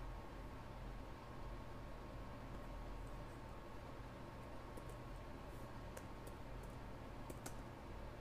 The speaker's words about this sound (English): Oh my gosh, you guys, I have a band-aid on my finger, and it's like I cannot type anything.